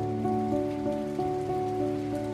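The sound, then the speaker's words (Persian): Gentle rain falling on wet tree leaves, a soft, continuous patter over sustained low tonal notes, even in loudness with no voices. “بارون آروم شروع کرد به باریدن، برگ درخت ها خیس از بارون”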